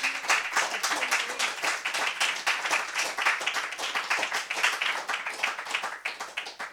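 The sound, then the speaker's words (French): Audience applause for a guest, a steady, dense patter of many hands clapping at moderate volume throughout, tapering slightly at the end. “Et puis, nous pouvons l'applaudir”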